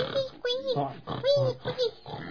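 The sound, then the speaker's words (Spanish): A human voice imitates piglets grunting while playing in a water puddle: a rapid run of nasal oinks and squealy grunts with gliding pitch, loud and close together. “Puercos guaguas. Sí, jugando en el charco. Con el charco de agua, unos bonitos puercos eran.”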